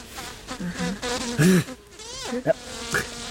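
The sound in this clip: Buzzing of a bee, a thin insect drone that wavers in pitch and swells and fades over a few seconds, with some low murmuring beneath it.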